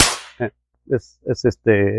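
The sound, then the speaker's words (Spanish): A compressed-air gun being loaded and fired, opening with one loud, sharp hissing burst of released air, then a few short voice-like sounds. “Es de aire. Entonces, ahí se carga esto.”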